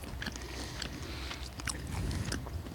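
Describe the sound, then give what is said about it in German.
Biting and chewing a Jägerknacker sausage outdoors, heard as faint, soft crunches and wet chewing in a few irregular bursts over low rumbling background noise. “Und dabei essen wir einen Jägerknacker.”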